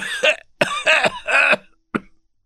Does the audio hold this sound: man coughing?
yes